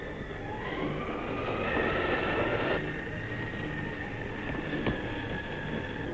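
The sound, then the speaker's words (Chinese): An express train bound for Vienna pulls into a station, with a steady, loud rumbling roar and thin high squealing tones running through it. “注意，注意，二十一次要进站了。”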